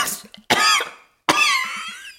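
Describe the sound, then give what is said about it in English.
Coughing from an elderly, unwell man: a few harsh, raspy coughs with no talk. The last two are loud, sharp bursts that each trail off into a rough, breathy rasp. “The still naked special one stood in front of the now coughing old school German.”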